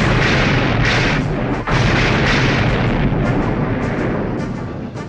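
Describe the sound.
A starship fires photon torpedoes in a wide scatter and misses the target: a loud, continuous booming roar with rumbling bursts and a brief cut near the middle, easing slightly at the end.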